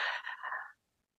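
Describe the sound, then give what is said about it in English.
One deep breath drawn in during a guided gratitude exercise: a steady, airy inhale that fades into silence. “Getting ready to receive one more time. Deep breath in.”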